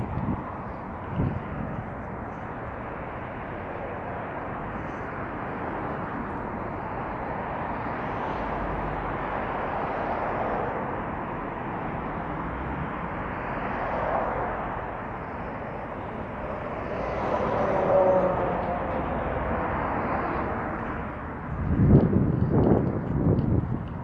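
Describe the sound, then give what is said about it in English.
An outdoor bicycle ride with steady rushing wind noise that runs throughout. The wind swells slightly at moments, and a few louder rattling bumps come near the end. “I'm trying to keep my mouth shut for the next minute or so. And we can listen to the sounds of this bike ride.”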